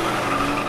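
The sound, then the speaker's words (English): Steady, loud rush of tire screech and engine roar from Denny Hamlin's Toyota race car celebrating a win, a brief unbroken burst with no separate events and no voices. “And this is the sound of Denny Hamlin celebrating after stuffing the competition.”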